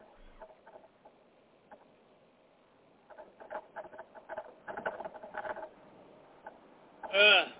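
A person imitates a piglet with a loud, brief, high-pitched squeal near the end, after a run of softer, scattered pattering sounds.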